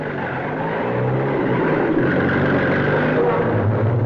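Car engine as the vehicle pulls away for a rough ride, a continuous low hum and rumble holding at an even, fairly loud level throughout.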